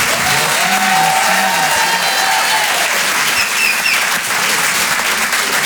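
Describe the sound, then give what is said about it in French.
Audience applause at a comedy club as a comedian finishes a set. A loud, dense wash of clapping carries through the whole clip without pause. “Merci beaucoup, merci infiniment. Faites du bruit, s'il vous plaît, pour Antoine Tartra.”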